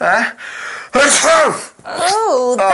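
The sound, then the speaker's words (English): A single loud, strongly voiced human sneeze, with a gasping intake before the burst and strained, wavering vocal sounds after it. “Sorry. A huge sneeze.”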